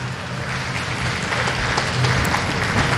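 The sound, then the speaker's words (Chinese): Applause from a neighbouring snooker match as it finishes at a tournament, a fairly loud, dense roar of many clapping hands that holds steady and grows slightly fuller toward the end. “旁边的掌声是送给莫菲和桑卡姆这场比赛的”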